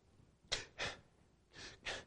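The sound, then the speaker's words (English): A voice imitates labored breathing with four heavy, noisy breaths grouped in two pairs, soft and breathy with no words. “and she'd talk and just breathing like that”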